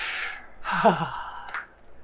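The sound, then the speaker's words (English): A voice imitates a deep, breathy inhale followed by a shaky, trembling exhale, a short wavering breath sound heard on its own. “He kind of makes this deep inhale and then a really shaky exhale, like...”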